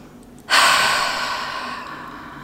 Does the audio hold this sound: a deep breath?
yes

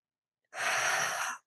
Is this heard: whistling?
no

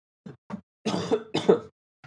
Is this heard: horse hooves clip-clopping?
no

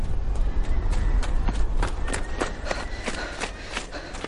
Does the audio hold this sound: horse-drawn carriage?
yes

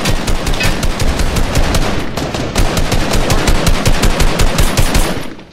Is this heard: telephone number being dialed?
no

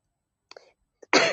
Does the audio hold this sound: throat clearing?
yes

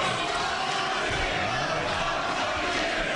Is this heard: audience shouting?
yes

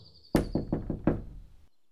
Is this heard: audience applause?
no

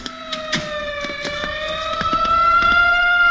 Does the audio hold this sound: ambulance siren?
yes

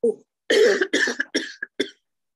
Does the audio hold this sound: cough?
yes

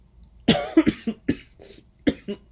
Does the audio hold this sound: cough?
yes

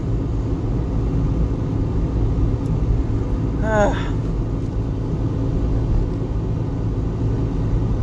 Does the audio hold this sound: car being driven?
yes

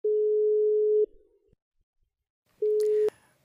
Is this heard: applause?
no

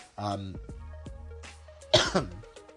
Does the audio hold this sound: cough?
yes

